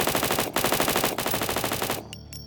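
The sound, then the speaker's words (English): A Tommy gun fires into dark woods in one sustained burst of many rapid shots at a fast, even rhythm, loud and alone, cutting off abruptly after about two seconds. “He pointed his gun at the dark woods and started shooting.”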